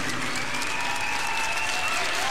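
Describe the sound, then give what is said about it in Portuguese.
A crowd gives a round of applause for Our Lady at a religious gathering, with dense, steady clapping that holds an even level throughout. “Uma salva de palmas a Nossa Senhora! Viva Nossa Senhora!”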